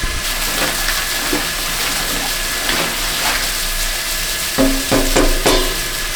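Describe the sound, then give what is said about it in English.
Belgian table-beer mash of Pilsner malt and oat flakes is stirred in a large stainless steel tank with a long wooden paddle, making a continuous wet, sloshing hiss with a few soft knocks near the end. “So this is our very authentic Belgian beer mash paddle, custom made by a friend of a friend, and I'm going to stir the mash.”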